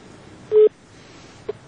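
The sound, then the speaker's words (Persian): A short electronic phone tone beeps once, loud and steady, then a faint brief blip follows as a caller's line connects during a call-in show. “تماس داریم، میشنویم کی است و از کجاست.”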